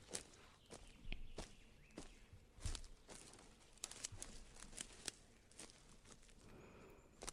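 Footsteps on a long walk outdoors in a natural area: many faint, irregular crunching steps with small crinkling sounds, quiet and without talk.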